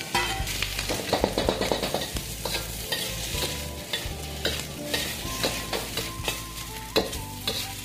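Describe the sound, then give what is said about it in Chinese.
Ginger sizzles as it is stir-fried in a modest amount of heated oil in a home kitchen. A steady, loud hiss runs throughout, broken by many sharp clinks and scrapes of stirring. “好，加热，然后把姜放进来，”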